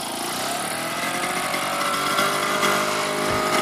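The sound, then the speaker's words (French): An old vélo Solex moped engine runs with a steady, buzzing drone that holds an even loudness throughout. “Oui, c'est pas bien nerveux. Hein. C'est une tondeuse. Notre vélo Solex est pas neuf.”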